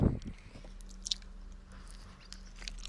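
Someone bites into food and chews, with faint soft crunching and wet clicks over a steady low hum; no one speaks during the chewing.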